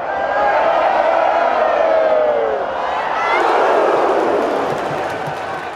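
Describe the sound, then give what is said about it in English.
Sports crowd cheering in a stadium: a loud, dense roar that swells, dips briefly and then surges again. Thin whistle-like tones thread through the noise early on. “Like a piece of music that if you just sit and listen to the crowd, you hear like how it swells and dives and peaks and then suddenly bursts.”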